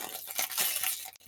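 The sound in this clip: Ripping open a packet: a continuous crinkly tearing and crunching rush of plastic that lasts just over a second and then cuts off abruptly.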